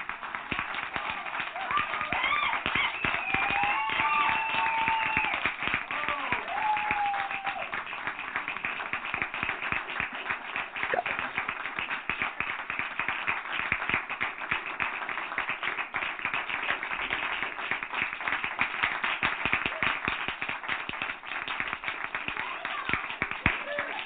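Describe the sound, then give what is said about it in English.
A live studio audience at a 13th anniversary special applauds in dense, steady clapping that continues without pause, with a voice briefly audible near the start. “A round of applause for all of the”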